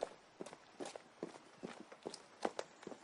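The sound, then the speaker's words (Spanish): Soft, uneven footsteps of a woman walking with difficulty along a mountain road while holding a man's hand. Many faint, irregular steps fall with a halting rhythm. “Ella camina con dificultad agarrada a la mano de David. Llegan a la carretera de montaña.”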